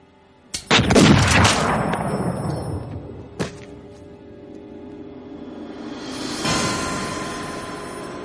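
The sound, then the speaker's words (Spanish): Gunshots striking a body in the 1999 science-fiction film The Matrix: a loud burst of heavy, booming blasts near the start, a single sharp crack a few seconds later, then a low swelling roar. “En la nave el cuerpo de Neo vibra con los balazos.”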